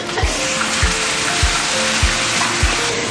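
Dry-frying food in a wok over a wood fire gives a steady, loud hiss of sizzling, with five evenly spaced low thumps. No voices are heard.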